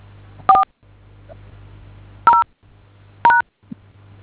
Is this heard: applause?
no